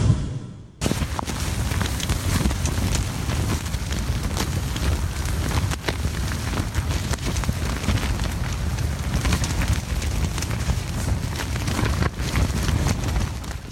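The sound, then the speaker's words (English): Strong wind buffets tents at a campsite crowded with many tents. After a brief quiet moment, a continuous, loud rushing roar sets in, with gusts and flapping bursts that never let up. “So we were slightly buffeted from the wind and the elements by the tents around us. But have a listen to the sound of the wind.”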